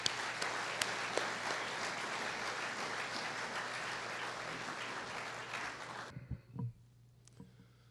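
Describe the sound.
Audience applause welcoming a speaker at an Alcoholics Anonymous meeting: dense, steady clapping that holds for about six seconds, then stops abruptly, leaving a few faint knocks and shuffles.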